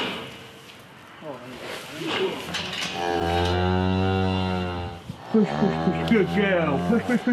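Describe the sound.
A cow moos while giving birth to a calf after her waters have broken, as the calf is pulled out by hand: long, low, strained moos with a drawn-out, groaning tone, loud and sustained.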